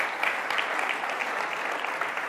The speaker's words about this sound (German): dieser Applaus, der gilt euch